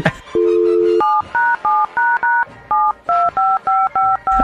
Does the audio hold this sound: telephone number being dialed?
yes

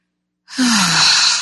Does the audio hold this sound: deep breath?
yes

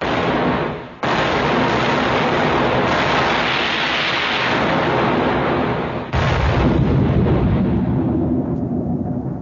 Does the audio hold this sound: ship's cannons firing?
yes

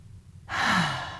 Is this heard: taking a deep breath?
yes

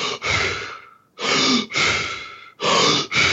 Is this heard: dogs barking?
no

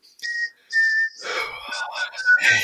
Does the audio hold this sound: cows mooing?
no

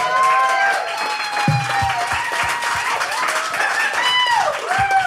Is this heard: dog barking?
no

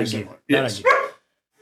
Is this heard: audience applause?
no

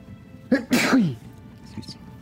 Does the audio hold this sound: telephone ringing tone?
no

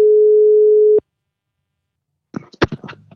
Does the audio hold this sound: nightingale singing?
no

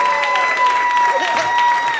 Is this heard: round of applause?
yes

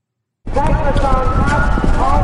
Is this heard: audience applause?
no

